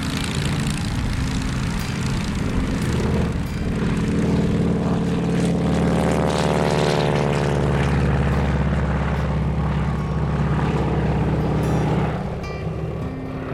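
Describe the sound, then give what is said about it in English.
Classic propeller aircraft engines drone loudly and steadily as aircraft depart from a gathering of vintage aircraft owners at Echuca on the Murray River. The dense, rumbling roar carries a tonal hum that shifts midway. “take place with the background ambience of classic aircraft engines, and constantly interrupted by the departing aircraft.”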